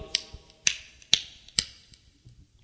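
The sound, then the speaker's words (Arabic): Four sharp, evenly spaced claps made by striking the back of the right hand against the left palm, crisp and alone with only faint softer taps between them. “صفق إزاي؟ بظهر يد في بطن أخرى، يعني بظهر اليد اليمنى في بطن اليد اليسرى”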